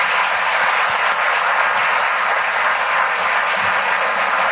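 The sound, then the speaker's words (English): An audience at an international business forum in New York City claps for a sustained round of applause, dense and even in loudness throughout with no voices. “So let's give them a big round of applause.”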